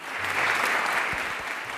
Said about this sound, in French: C'est sous des applaudissements nourris que Beate et Serge Klarsfeld ont inauguré l'exposition